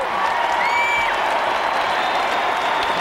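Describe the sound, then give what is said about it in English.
An audience applauds as former NBA All-Star Tom Chambers, number 24, is introduced at an honouring ceremony, a steady, even wash of clapping lasting the whole stretch. “Now join me in welcoming number 24, Tom Chambers.”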